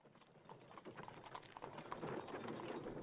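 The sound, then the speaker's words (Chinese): Horse hooves clip-clopping as a horse-drawn carriage pulls up and stops, heard as a faint, steady patter of hoofbeats throughout. “大德通门外一辆马车停下”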